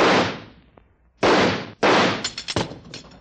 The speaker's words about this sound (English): Stand back. I think I can shoot that handle off.